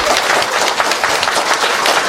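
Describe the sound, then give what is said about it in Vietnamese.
Applause from an audience rewarding children for good answers during a Vietnamese talk: dense, steady clapping that fills the whole moment at a loud, even level with no pauses. “cho các em trả lời hay một tràng pháo tay”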